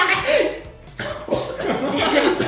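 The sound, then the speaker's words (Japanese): Someone chokes on their own laughter and breaks into a coughing fit. A few harsh, rasping coughs mix with chuckles and breathy laughs, and voices talk around them. “むせないでください。ガチむせっすか。”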